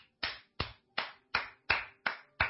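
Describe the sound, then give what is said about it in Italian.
Single pairs of hands applaud alone in a silent hall: seven sharp, dry claps in a slow, steady rhythm, each evenly spaced with quiet gaps between them. “La signora lo vede arrivare. È la prima a tributargli un applauso nel silenzio totale.”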